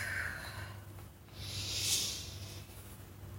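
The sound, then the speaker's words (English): A person breathing deeply during a guided energy-clearing exercise: a soft, airy breath at the start, then a longer, louder hissing breath that swells and fades, all alone. “In the movement with your body, I'm gonna go ahead and just breathe and do that now.”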